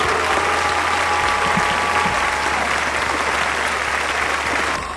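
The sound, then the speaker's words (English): A crowd cheering sound effect plays as a thick, steady roar of applause and cheers that stays loud and even throughout, easing slightly at the very end. “That's people partying here at Hutton. Ha! In spite of you. It is. Listen to all those cheers.”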